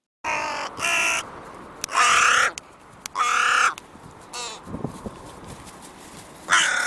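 Crow cawing: several loud, harsh, drawn-out caws separated by short pauses, with one fainter, choppier call in between.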